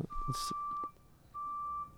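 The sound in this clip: Beeping outside, two sustained, steady high electronic tones like a vehicle alarm, separated by a short gap, with a voice speaking briefly over the first.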